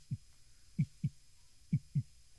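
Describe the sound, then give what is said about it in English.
A heartbeat echoes through a flooded room in a video game: deep, muffled low thumps, five in all, falling into paired beats over a faint steady hum. “You also hear like a heartbeat sound while you're in there.”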